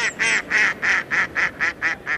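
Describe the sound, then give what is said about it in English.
Mallard ducks calling in winter, a rhythmic run of many evenly spaced, nasal quacks of steady loudness, without other sounds. “In winter, mallards from continental Europe join our resident birds.”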